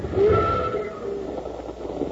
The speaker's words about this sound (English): I thought you liked riding on a train.